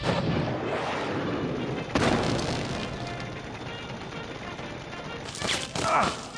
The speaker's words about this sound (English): I'll switch to my missile launcher. Try that with VATS.